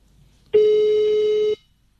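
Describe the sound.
One steady telephone ring tone sounds as a radio host phones a listener on air, a loud, flat, buzzy mid-pitched tone lasting about a second between quiet gaps.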